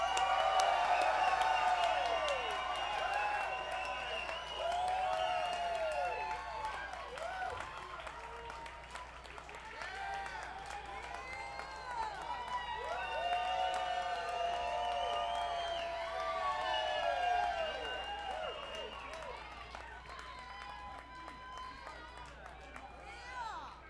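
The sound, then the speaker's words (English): Audience applause and cheering welcome the band Cabinet at a hometown Northeast PA show: a dense, sustained roar of clapping with many whoops and shouting voices, loud throughout and easing only slightly toward the end. “Please, everybody, give a big hometown Northeast PA welcome for Cabinet.”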